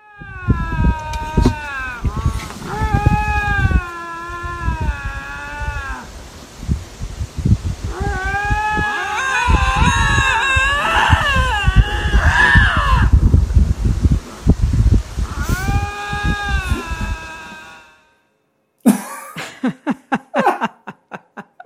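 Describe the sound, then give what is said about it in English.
Two lynx call to each other from about six feet apart, trading loud, long, wavering yowls and moans that overlap in bursts. After a brief silence comes a final string of short, sharp cries. “These two lynx are, you know, maybe 6 feet apart at the max, and they've come across each other and they're in full throated communication.”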